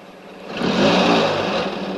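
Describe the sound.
A car engine revs as the car drives off, its mid-pitched tone swelling to a peak about halfway through and then holding steady. No voices are heard.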